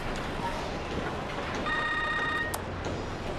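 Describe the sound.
A telephone rings with an incoming call. There is one short electronic tone burst of about a second, standing above a noisy, rumbling background.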